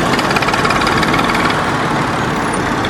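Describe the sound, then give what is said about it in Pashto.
An old motorcycle engine runs steadily, carrying two men through a war-damaged village area in Afghanistan. It makes a loud, continuous rumbling drone with no talk. “نادلی ته پر یوه زاړه موټر سایکل تلونکي دوه وړونه یار محمد او سردار ولی”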